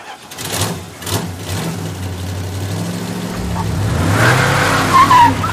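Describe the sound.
Car driving and skidding in a video game: a steady low engine drone that swells gradually in loudness, then a brief high tire squeal near the end.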